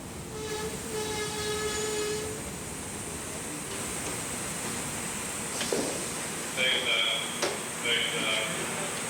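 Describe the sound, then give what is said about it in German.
An express train from Passau to Vienna Westbahnhof arrives at platform 2 of a station with a steady rumble and hiss, broken by intermittent high, tonal squeals. “Eilzug 523 von Passau nach Wien Westbahnhof. Planankauf 1326. Fährt Bahnsteig 2. Bitte Vorsicht.”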